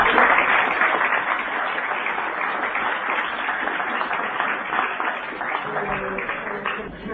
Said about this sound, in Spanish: Así que lo vamos a pedir con un aplauso.